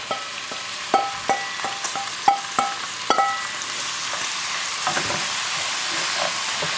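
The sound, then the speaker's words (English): Grated tofu fries in a pan with crispy chicken: a constant sizzling hiss with a run of sharp clicks and scrapes from stirring during the first few seconds, then a steadier sizzle. “my chicken is, it's looking brown. It is getting crispy, I can tell. And now I'm going to add all of the grated tofu. So it's just going straight into the pan.”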